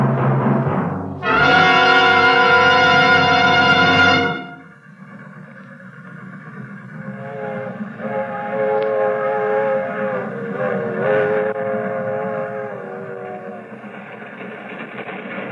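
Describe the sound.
A moving freight train slowing for a crossing gives one long, loud, blaring whistle blast, then settles into a steady rolling rumble with a high, wavering tonal squeal riding over it.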